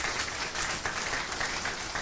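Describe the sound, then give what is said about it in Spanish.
A church audience applauds during a Spanish-language sermon, a continuous wash of clapping at a fairly even, moderate level from start to finish, with no voices heard over it. “Denle un aplauso al Rey de Reyes y Señor de Señores.”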